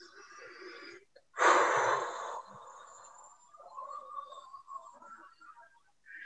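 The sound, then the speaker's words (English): A deep breath taken during a guided meditation, heard as one loud, breathy rush lasting about a second, standing out against a faint, quiet background. “Okay, one more deep breath.”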